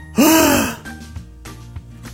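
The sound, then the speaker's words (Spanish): A boy gasps after looking down from high up in a tree amid smoke. The gasp is one sharp, voiced intake that swells and fades within half a second, followed by a few faint, soft breathy sounds. “Miró hacia abajo. Vio qué tan alto estaba y dejó salir un jadeo.”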